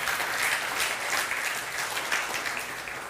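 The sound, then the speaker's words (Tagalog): An audience clapping during church worship: a short, dense round of applause at a steady level that eases slightly at the end. “Palakpakan niya po natin yung Panginoon.”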